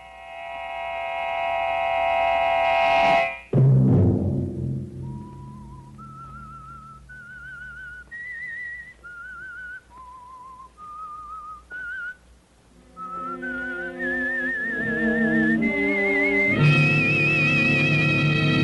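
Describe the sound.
A whistled melody plays the theme tune of The Whistler radio show, with clear, sparse notes stepping up and down in pitch. Sustained orchestral chords come before and after it.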